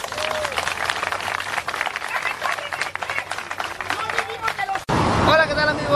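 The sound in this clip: Audience applause at a live stage show, a dense steady patter of clapping mixed with crowd murmur, shifting abruptly near the end to a louder burst of noise.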